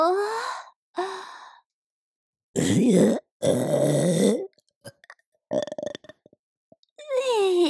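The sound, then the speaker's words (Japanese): A woman burps loudly, with two drawn-out, rough belches in quick succession after a pair of breathy sighs. A few small mouth clicks follow, then more breathy vocal sound. “すっごい量飲んじゃったから、ゲップ出そう。”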